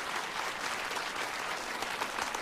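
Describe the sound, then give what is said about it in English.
Warm applause from a live show audience greeting a singer: dense, even clapping with no break, steady in loudness throughout. “could you please give a warm round of applause?”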